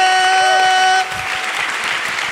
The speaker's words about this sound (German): Und damit haben wir eine Gewinnerin. Ein Applaus für Marie.